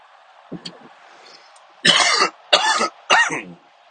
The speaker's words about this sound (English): I'm a smoker. I have a little bit of smoker's cough.